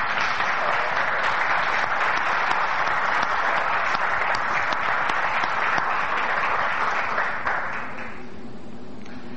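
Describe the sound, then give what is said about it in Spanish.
Sustained audience applause at a conference talk on paranormal experiences, dense steady clapping for about eight seconds before dropping off abruptly into quiet. “Quiero pedir un fortísimo aplauso para don Santiago Vázquez.”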